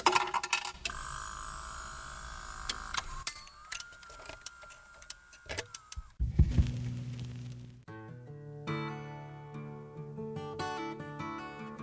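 A jukebox starting up: metallic clinks, ticks and a steady mechanical whirring tone, then a low thump, after which music starts playing.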